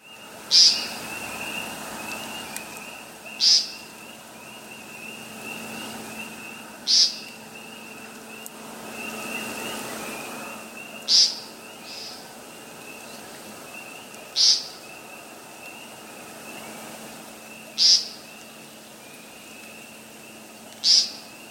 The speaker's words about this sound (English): broad-winged hawk.